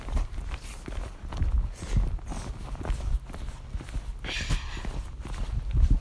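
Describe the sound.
Footsteps of a person walking across a street on a stroll, with an uneven run of soft, thudding steps, some heavier than others, continuing throughout.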